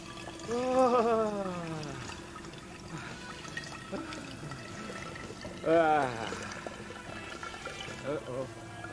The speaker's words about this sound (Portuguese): A garrafa encheu e ainda estou apertado. Dá um jeito de parar. Eu não posso. Se parar, vai doer muito.